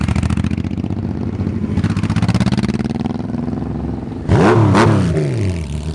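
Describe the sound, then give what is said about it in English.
Motorcycles with amplified drag-pipe exhausts rumble with a loud clattering idle, then break into sharp revs that rise and fall twice near the end. “This is the sound of motorcycles with amplified exhaust systems, what some call drag pipes.”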